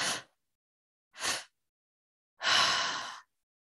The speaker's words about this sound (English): you're breathing into the belly, into the chest, and then exhaling.